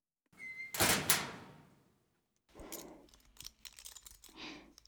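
A door is pushed shut on a cramped space in a Japanese audio drama: one loud thudding slam with a lingering decay, followed by a few softer clicks and rattles.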